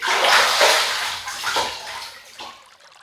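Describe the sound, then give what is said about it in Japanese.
Warm water poured over a head at bath time, a loud rushing splash that gradually thins out over about three seconds, with a few smaller spurts near the end. “最後にもう一度お湯を頭にかけるよ。いきまーす。”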